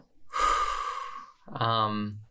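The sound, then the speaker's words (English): A voice imitates a long, laborious breath: a drawn-out, breathy inhale followed by a short voiced, groaning exhale. “And they finally answer your question after taking this long, laborious breath.”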